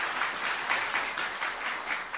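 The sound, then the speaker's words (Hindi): Applause from an audience at a gathering at a centre: dense, steady clapping from many hands that holds an even level for the whole stretch. “बहुत ही अच्छा, आप सभी के लिए एक बार तालियां बजा दो।”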